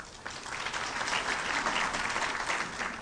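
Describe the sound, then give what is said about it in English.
Audience applause interrupting a political speech. Clapping swells quickly at the start, then carries on as a thick, steady roar of many hands. “I shouldn't think people should feel free to applaud any time that they want.”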